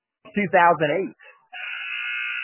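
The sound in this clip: A basketball game clock buzzer at a high school varsity game marks three minutes, a harsh, steady, sustained buzz lasting about a second that follows a brief stretch of talking.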